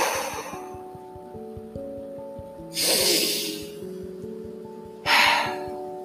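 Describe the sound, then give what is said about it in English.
Two deep, airy breaths taken during a guided meditation rise clearly above soft, sustained music, each a swelling breathy rush separated by a few seconds of calm. “Take a few deep breaths.”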